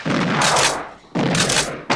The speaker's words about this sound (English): Wynn fires and knocks the bird from the sky.